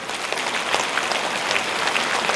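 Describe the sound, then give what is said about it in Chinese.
An audience bursts into applause for a guest at a ceremony, a dense, steady wash of many hands clapping at an even level throughout, with no voices standing out. “现在让我们用最热烈的掌声恭请我们尊敬的卢军宏台长”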